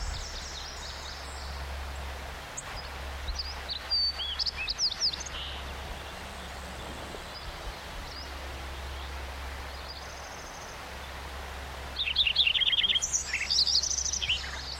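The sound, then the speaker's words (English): A white-crowned sparrow sings in bursts of bright, high chirps and trills, one group near the middle and a livelier one toward the end, over a steady low rumble and faint rustling background. “white crown sparrow on there.”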